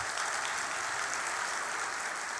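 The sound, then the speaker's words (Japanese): Audience applause after a talk, dense and steady clapping that holds at an even level throughout without breaks. “皆様、今一度大きな拍手をお送りくださいませ。”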